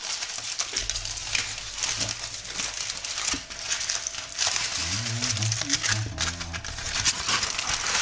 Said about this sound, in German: Und jetzt werde ich die Brote auspacken und frühstücken.